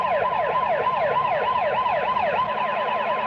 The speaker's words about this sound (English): Here they come. Three patrol cars pulling up.